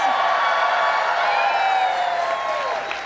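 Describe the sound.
A live audience at the Warner Theater in Washington, D.C. cheers and whoops, a dense wash of crowd noise with high sliding whoops riding over it, tapering off toward the end.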